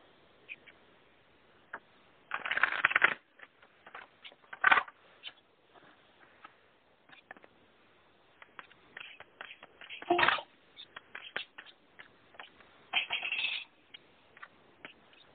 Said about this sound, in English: We have them almost done, but I wanted to just pull a few cards.